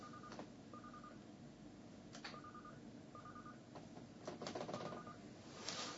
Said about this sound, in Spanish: a ver, el teléfono.